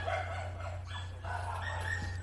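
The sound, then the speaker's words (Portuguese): Faint barking from a household's many dogs comes in a few short yaps over a steady low hum. “Nossa, quanto cachorro você tem? Eu tenho muitos cachorros, cara.”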